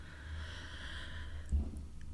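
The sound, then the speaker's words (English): A deep breath drawn in through the mouth: a faint, breathy hiss lasting about a second and a half, ending in a brief soft low thump, with no voices. “And how about we take one last deep breath, but through our mouth this time. So deep breath through your mouth.”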